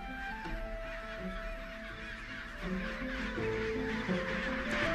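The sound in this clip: A large penguin colony of over 150,000 birds calls in a dense chorus: many overlapping honking, braying cries form a steady, loud wall of sound throughout.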